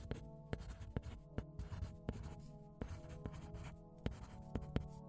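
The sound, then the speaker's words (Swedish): A pen scratches on paper as a letter to a school agency is written by hand. Many short strokes and scrapes come in an uneven run, faint, over a steady low hum. “Anahit och Sala är båda missnöjda med Skolverkets läroplaner inom historia och har därför bestämt sig för att skriva ett brev till dem.”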